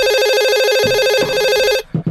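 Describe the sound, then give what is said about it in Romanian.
A telephone rings in a home with two children at a late hour. The loud electronic ringtone warbles as a steady, fast multi-tone trill, then stops abruptly near the end. “Cine sună la ora asta? Probabil că e ceva urgent.”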